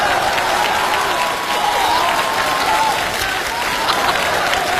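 Loud, dense audience applause at a comedy stage show, with crowd noise mixed in. The clapping holds at a steady, continuous level throughout.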